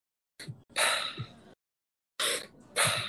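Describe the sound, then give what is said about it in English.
Full diaphragm breaths drawn in and pushed out through the mouth: two quick in-and-out cycles of loud, airy rushes separated by a brief pause, with no talking. “It's in through the mouth, out through the mouth. So a full diaphragm breath that's, you know, stomach first will obviously expand, and then your chest will expand after.”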